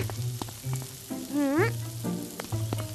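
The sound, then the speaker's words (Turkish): Sizzling of cauliflower meatballs frying in a pan, a steady crackle broken by scattered sharp pops at a moderate level. “Karnabahar önceden piştiği için köfteler çok çabuk olacak. Yaşasın! Bak, bir yüzleri pişti bile.”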